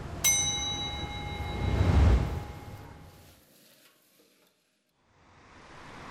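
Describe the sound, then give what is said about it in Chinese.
Sizzling stir-fry of tender pork kidney and crisp beef aorta tossed in plenty of hot oil over a fierce flame, Hunan style. A ringing metallic clang opens a loud, steady sizzle that fades, then a softer hiss returns near the end. “娇嫩的腰花与脆爽的黄喉，在锅热油宽火旺下翻炒几十秒即可”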